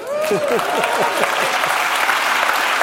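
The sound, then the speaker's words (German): Audience applause at a live talk: dense, steady clapping that fills the whole clip at an even loudness, with a voice briefly speaking over it near the start. “Alle klatschen, die mich nicht brauchen.”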